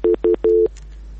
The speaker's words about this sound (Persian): متاسفانه تماس ما با برادر ما قطع شد، نمیفهم که مشکل چی بوده.